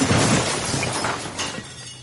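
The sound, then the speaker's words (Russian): A crash of shattering glass as a laboratory door is torn off its hinge. A dense, noisy burst is loudest at the start and tails off gradually over about two seconds. “Зазвенели разбитые стекла, дверь лаборатории крякнула и сорвалась с петли.”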